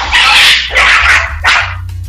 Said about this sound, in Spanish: Mándelos para afuera, mándelos para afuera. Que hay unos perros y aquí los estamos corriendo.